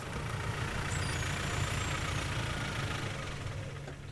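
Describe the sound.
A vehicle engine drives onto a river dike in an Elbe river nature reserve. It gives a steady, loud, rough rumble throughout, with a faint high whine early on.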